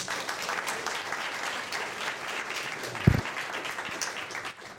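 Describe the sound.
Audience applause welcoming a university engineering and medicine speaker to the podium. The clapping is fairly soft and steady, with one brief low thump around the middle, and it thins out near the end.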